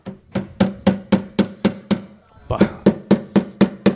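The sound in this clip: Repeated heavy blows struck against a piano to force it open: a fast, evenly spaced series of sharp knocks, a short pause midway, then the pounding resumes at the same pace.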